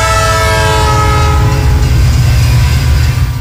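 A train passes with its horn sounding: a loud, sustained multi-tone blast that fades after about two seconds. A heavy, continuous rumble and rail clatter runs underneath throughout.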